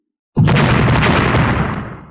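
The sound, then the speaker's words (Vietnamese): A single loud explosion breaks suddenly out of silence, a deep, heavy blast. Its broad rumble holds briefly, then fades away. “Một trận thanh âm nổ thật to, càng thâm thúy vang hơn là cả vực ngoại không gian.”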